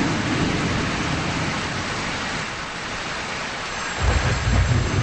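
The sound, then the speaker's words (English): Heavy rain pouring down in a steady, dense, loud hiss that never lets up, with a deeper low rumble swelling under it near the end. “A downpour begins while Jim sits in his study at home.”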